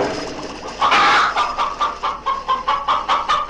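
Chickens cluck in a henhouse: a quick, loud run of rhythmic clucks starts after a moment of softer murmuring and continues steadily to the end.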